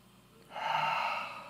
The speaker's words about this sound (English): Now I want you to take a deep breath in. You ready? Hold it. Now let it out. Let's do it again.